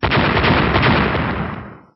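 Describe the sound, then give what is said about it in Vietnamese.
A series of loud explosions shaking the sky, merging into one dense, roaring barrage that holds steady before fading out at the end, with no talk. “Liên tiếp những tiếng nổ lớn vang lên chấn động bầu trời.”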